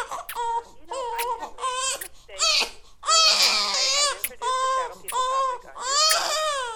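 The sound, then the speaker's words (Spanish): A young child cries desperately after vomiting, letting out repeated high, wavering wails and sobs broken by short gasping pauses, loud and strained with no other voices. “corrió a por su niño que, en cuanto terminó de vomitar, comenzó a llorar desesperadamente.”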